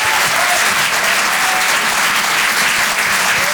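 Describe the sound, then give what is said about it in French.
Audience applause for a comedian taking the stage at a stand-up comedy show: dense, steady clapping that stays loud and even for the whole clip with no pauses. “Je vous demande de l'encourager, faites du bruit s'il vous plaît pour Arthur sur Rire et Chanson.”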